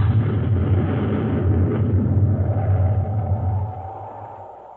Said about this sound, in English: somebody's shooting at us. It's a spaceship coming in low.